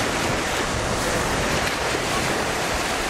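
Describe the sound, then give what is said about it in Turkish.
Sea waves at Ilıca Beach in Çeşme, İzmir, heard as a dense, unbroken roar of surf mixed with wind noise, holding level throughout without distinct breaks. “Deniz, kum, güneş üçlüsünü hayal ettiler. Plaja geldiler, hayal kırıklığına uğradılar.”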